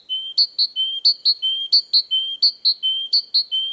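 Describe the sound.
A great tit sings a bright, high-pitched whistled song of clear notes alternating between a lower and a higher pitch, repeated many times in a steady, strongly rhythmic pattern, with no voices or other sounds.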